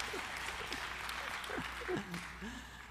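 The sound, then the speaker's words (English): Applause from an audience giving the presenter's assistants a hand: soft, steady clapping that holds for about three seconds, with voices audible over it. “Hey, give my lovely assistants a hand, would you?”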